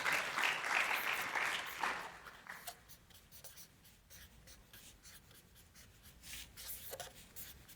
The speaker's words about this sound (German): Ich habe noch eine letzte Folie, die male ich euch.